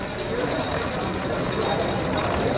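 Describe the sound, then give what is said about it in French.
A roulette wheel spins in a casino game as the ball rolls: a steady, dense whirring rattle that stays even and fairly loud throughout. “La roulette roule.”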